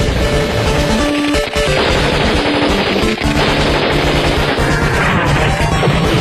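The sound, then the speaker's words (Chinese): Machine-gun fire in a battle scene during a hostage rescue, with a jeep pushing through heavy enemy fire. Dense, loud, continuous rattling bursts are mixed with crashing impacts, with barely a break throughout. “你开吉普车，我开火。”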